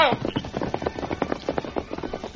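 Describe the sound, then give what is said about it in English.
Hoofbeats of the horse Silver galloping off with the Lone Ranger riding, many rapid, rhythmic thuds in a steady quick pattern, with a brief voice at the very start. “As the Lone Ranger and Tonto rode away from the camp”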